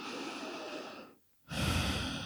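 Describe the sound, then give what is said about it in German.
A deep breath in and out during a guided relaxation exercise: a soft airy exhale, a brief near-silent pause, then a fuller, louder inhalation of breathy noise, with no talking. “Und atme nochmal tief ein und aus.”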